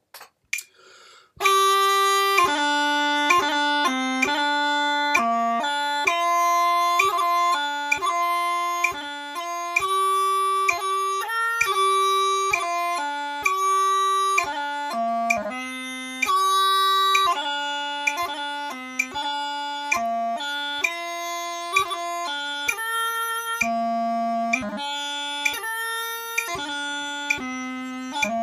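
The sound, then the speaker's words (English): Steady metronome clicks tick through a melodic instrumental passage whose notes are played deliberately slightly behind each click, laid-back and controlled, running continuously for almost half a minute. “Could you hear how I was actually purposefully late to a lot of the clicks on the metronome, as opposed to accidentally early?”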